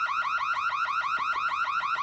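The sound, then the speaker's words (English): A fire alarm sounding: a loud, shrill electronic tone sweeping in rapid repeated cycles, many per second, steady and unbroken throughout. “pulls down the fire alarm. Everyone covers their ears and files out of their rooms.”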